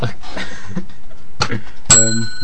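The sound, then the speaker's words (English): A single bright bell ding follows a short stretch of indistinct voices, and its clear ringing tone hangs on to the end. “What do we need a song for? We got the bell. Okay. God, if that was a number one this week, a bell sound.”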